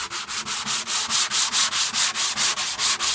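Sandpaper rubs over the wooden body of an oud in a luthier's workshop in Baghdad's old town, making rapid, steady back-and-forth rasping strokes in an even, loud rhythm with no voices.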